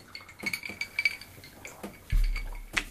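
Glasses clink together in a toast: a few faint, light, bright clinks spread irregularly across a quiet background.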